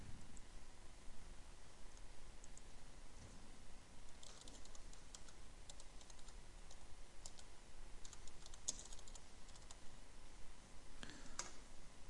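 Keyboard typing: many faint, irregular key clicks scattered throughout, sometimes in quick clusters, over a steady background hiss.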